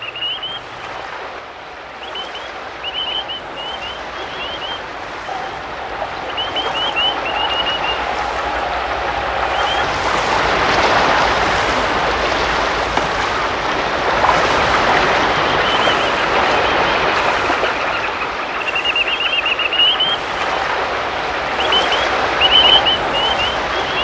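A rushing river flows swiftly in a steady, broad roar of water that swells louder through the middle and stays strong to the end.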